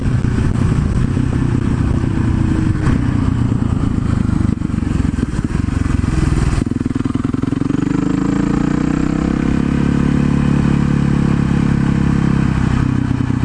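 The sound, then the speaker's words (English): Supermoto motorcycle being ridden, the engine clattering and buzzing loudly at first, then settling into a droning note whose pitch shifts as the throttle changes. “It's true, though, there is almost nothing more fun than a supermoto to ride.”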